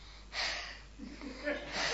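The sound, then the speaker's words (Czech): Deep breaths are taken on request during a listening check for measles: a few breathy, hissing inhales and exhales with a soft voiced murmur between them. “zkusím, zhluboka dýchej, prosím tě.”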